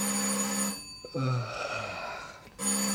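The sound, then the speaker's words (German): A telephone rings at about eight in the early morning. Its bright, steady bell tone sounds in two bursts separated by a pause, with a low muffled sound in between. “als mich gegen 8 Uhr früh das Telefon weckte.”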